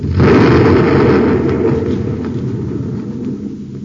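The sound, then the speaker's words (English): A torpedo explosion: a loud, deep, rumbling blast that hits suddenly and keeps roaring, fading slowly over a few seconds. “He's making a pass right over us. He fired a torpedo.”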